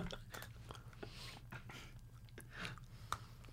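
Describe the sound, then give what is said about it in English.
Crunchy snap peas being chewed: many crisp, irregular crunches and bites over a steady low hum, with no talking. “Sounds like a nice snap. Yeah, mm-hmm. These are great. Crunchy.”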